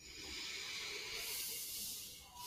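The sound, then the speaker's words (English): Deep breathing in a guided breathing exercise, a long inhale and exhale heard as a steady, airy hiss that fills the whole clip, with no talk over it. “Again, deep breath in. Long breath out. And one more deep breath in.”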